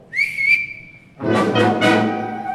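A sleigh driver's whistle to his team: one long, loud, high whistle held steady for about a second, with no talk.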